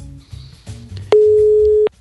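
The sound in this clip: A telephone busy signal sounds while a guest is being dialed: one steady, mid-pitched beep, under a second long, rises out of low background noise and then cuts off.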